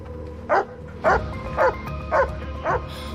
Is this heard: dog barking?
yes